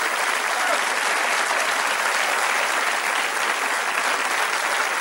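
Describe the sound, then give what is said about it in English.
Audience applause for an introduced artist: dense, continuous clapping holds at a steady, loud level from start to finish, with no break and no voices standing out. “give her a nice round of applause”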